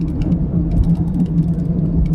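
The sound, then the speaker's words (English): A rally car engine held on the rev limiter along a descending country road stretch: a loud, steady, low engine drone with quick, irregular ticking and crackling on top throughout. “You're on the rev limiter coming down here the whole way.”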